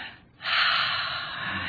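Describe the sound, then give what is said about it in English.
A deep breath drawn in by a church audience during a worship service, a long, loud, breathy rush of air that swells suddenly and holds steady for over a second. “I wanted to say, just everyone take a deep breath and go,”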